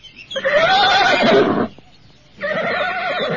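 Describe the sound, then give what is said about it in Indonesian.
An old, bad-tempered horse whinnies loudly in two long, wavering neighs with a brief gap between them, the second slightly shorter. “Maaf kak, kuda kami galak.”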